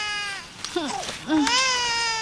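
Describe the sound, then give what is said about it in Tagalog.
A hungry baby, the youngest child, cries in a few wavering, high-pitched wails that rise and dip in pitch, with the last cry louder and more sustained. “Naku, umiiyak na yung bunso ko. Gutom na yata yung baby bunso ko.”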